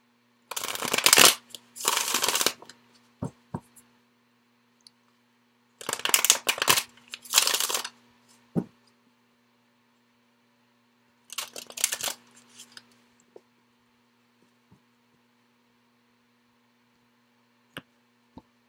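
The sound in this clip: A tarot card deck is shuffled in three separate bouts of crisp riffling, with a few soft clicks and taps scattered between them and quiet pauses in between, no talking.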